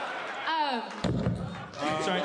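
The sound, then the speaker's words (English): A chair gives a single dull, heavy thud in the middle of people talking, whose voices continue before and after the knock. “Sorry. That's the chair. That was the chair.”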